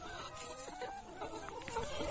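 Hens cluck in a group, giving many quiet, overlapping clucks and short calls in a steady, busy chatter throughout.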